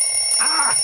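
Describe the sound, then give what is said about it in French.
Alarm clock ringing in the morning, a harsh, loud, steady high-pitched electronic ring that holds unbroken for the whole second. “Eh ouais, l'horrible bruit du réveil.”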